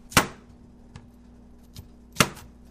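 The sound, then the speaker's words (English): A knife chops green cauliflower at home: two sharp, loud chops about two seconds apart, with a couple of much fainter taps between them. “chops the green cauliflower he got at the food bank.”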